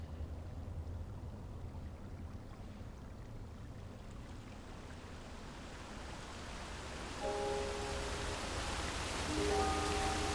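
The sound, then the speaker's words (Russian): A waterfall covering a cave entrance gives a faint, continuous rushing hiss that thickens slightly toward the end, where soft sustained tones enter. “Маг и мудрость смотрят на водопад, который закрывает вход в пещеру.”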